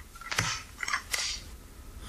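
A stapler is pressed, giving three sharp, bright clacks spaced roughly evenly apart, faint and with no other sound.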